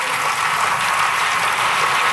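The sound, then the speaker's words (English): Applause rings out in the French National Assembly after lawmakers vote unanimously to repeal the Code Noir, a loud, dense, steady clatter of many hands. “Applause breaking out in the National Assembly after lawmakers voted unanimously to repeal the Code Noir, or the Black Code.”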